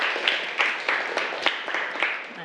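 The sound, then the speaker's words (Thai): Students in a classroom applaud group 3 with a steady rhythmic clap, many even beats at a regular pace over a constant background of clapping. “ปรบมือให้กลุ่ม3หน่อยนี่คือผลงานของกลุ่ม3นะคะ”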